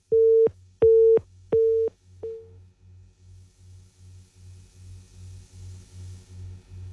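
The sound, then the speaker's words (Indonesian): Telephone tones after a disconnected line: three loud, steady beeps and a short fourth, then a softer, lower tone pulsing rhythmically many times. “Baik, terputus kembali ya line teleponnya.”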